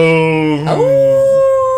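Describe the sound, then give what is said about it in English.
Hounds howl in the background of a stage production: a drawn-out, strongly tonal canine howl that sags slightly in pitch, breaks briefly, then settles into a steady held note. “I loved it when they had that in the background, the howling of the hounds.”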